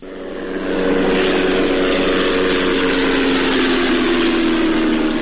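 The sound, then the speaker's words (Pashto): Steady droning hum of an unidentified unmanned drone flying over Ghazni, Afghanistan: a loud, continuous engine tone with layered low harmonics that swells in over the first second, then holds level with no voices. “دا د هغه بی پیلوټ الوتکې غږ دی”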